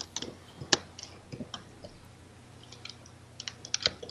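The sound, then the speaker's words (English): Someone chews crunchy honey oat and almond cereal, making faint, irregular crisp crunches scattered over a few seconds, with no talk. “I'm eating crunchy cereal. What kind is it? Honey oat and almond.”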